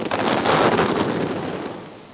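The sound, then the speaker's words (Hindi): A celebratory rifle volley fired by police platoons at an Independence Day parade: one loud, crackling burst that fades away over about two seconds. “और फिर हुआ हर्ष fire.”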